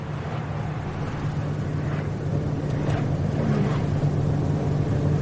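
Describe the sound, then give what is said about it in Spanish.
A car drives along a road and through a tunnel in a drama film. It gives a steady, low, continuous engine drone with rushing road noise, holding an even level throughout. “Un vehículo circula por la carretera y cruza un túnel.”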